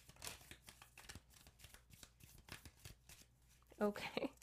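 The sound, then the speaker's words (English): Crystal cards being shuffled by hand: many soft, rhythmic riffling flicks repeat steadily, ending in a few louder, sharper bursts. “So let's get some crystal cards.”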